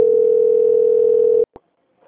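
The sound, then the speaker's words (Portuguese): A steady, single-pitched telephone tone plays while a call is being transferred. It holds evenly for about a second and a half, then cuts off abruptly with a click before near silence. “Eu vou pedir que você aguarde um minuto na linha, eu vou transferir o contato para o controle de qualidade, vai dar andamento na sua contratação. Tá. Transferência.”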